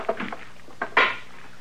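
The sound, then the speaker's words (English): A stick of wood banged against a wood stove: a few sharp, hollow knocks spaced out, the last one the loudest, followed by quiet. “Well, that stick of wood, of course. You're gonna wreck it banging it on the stove that way. Well, it's too big. It don't fit.”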